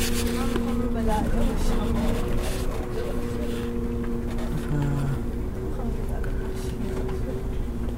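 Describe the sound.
A bus engine idles on the deck of a landing craft bound for Kish. Its low, steady drone and hum tones hold evenly throughout, under a voice talking.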